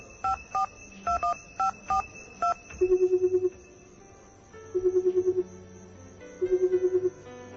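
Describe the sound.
Keypad tones of a mobile phone as a number is dialed, several short beeps in a quick uneven rhythm, followed by three bursts of a rapidly pulsing ringing tone separated by pauses.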